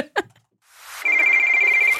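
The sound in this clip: Telephone ringing on a call-in line: a short click, then one steady, bright electronic ring lasting about a second, heard alone.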